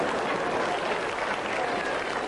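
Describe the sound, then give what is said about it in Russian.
Audience applause at a live talk: a dense, continuous patter of many hands clapping, holding an even, fairly loud level from start to finish. “мне нравится, что вы аплодируете”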